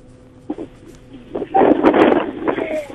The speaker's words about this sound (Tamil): எதுமலை எப்படி இருக்கு காத்தா மழையா வெயிலா காத்து அடிக்குதுக்கா